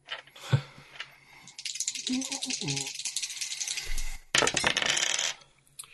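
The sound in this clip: Dice are rolled during a tabletop game, making two spells of clattering, rattling tumbles. A short voice comes before the first roll.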